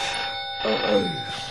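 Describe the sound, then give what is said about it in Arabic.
A telephone rings at night with a steady, bright electronic tone holding over a constant background, moderately loud and with no voices. “التلفون بيرن”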